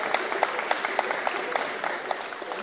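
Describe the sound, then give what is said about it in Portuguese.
Clapping from an audience at a samba gathering, a fairly quiet, rhythmic patter with regular accented claps on a steady beat throughout. “uma salva de palmas, gente”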